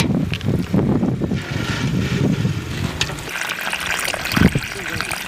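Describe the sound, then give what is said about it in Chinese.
Water poured onto dry soil around muskmelon plants in a garden on a hot day, a continuous splashy wash mixed with wind buffeting, while a person talks over it. “天太热了，这下面这都有点干了，给瓜浇浇水，让它 呀茁壮的成长。”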